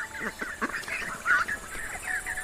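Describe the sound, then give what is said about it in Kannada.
A group of ducks quacking at a river, a busy run of short nasal calls overlapping throughout, with one louder call near the middle. “ಆಮೇಲೆ ಆ ಬಾತುಕೋಳಿಗಳ group ಅಲ್ಲಿ ಬರುತ್ತೆ.”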